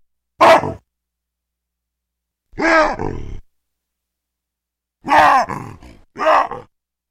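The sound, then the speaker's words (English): Loud two-part wahoo calls from three different baboons, heard as four harsh, barking bursts separated by silence, some bursts breaking into two parts. “Okay, well, let's hear a sequence of three different baboons doing wahoos.”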